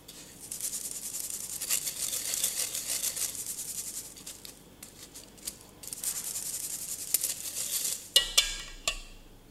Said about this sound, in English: So I'm just going to pass them through a sieve so there are no large clumps, and just make everything even.